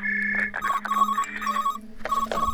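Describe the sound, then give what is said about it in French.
A mobile phone rings with an incoming call: a bright electronic ringtone of shifting, chirpy tones in a quick melodic pattern, moderately loud and continuous throughout the short clip, with no voices. “Ouais, on m'appelle là.”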